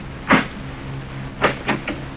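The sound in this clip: A door being opened in response to urgent pounding: a few sharp clunks and rattles, one strong at the start and a quick cluster near the end, over a low steady hum.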